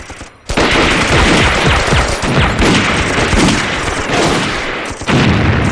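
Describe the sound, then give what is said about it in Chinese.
Soldiers firing at will in combat produce dense, continuous gunfire: many overlapping shots and rapid bursts with heavy booms mixed in, loud throughout with barely a pause. “发现目标，自行射击，打完就动。”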